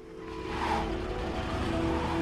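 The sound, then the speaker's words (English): Engine drone of a heavily protected car as it turns around and parks in a quiet suburban cul-de-sac, a steady low hum with a faint tonal whine that grows slightly louder and holds, with no voices. “They turn the heavily protected car around and park it facing the exit.”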